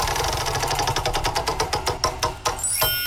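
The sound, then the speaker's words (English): A prize wheel spins and clicks during a morning game segment, its rapid, steady ticks gradually spacing out as the wheel slows, loud and with no talk over it. “let's spin the wheel and find out what game we are playing this morning.”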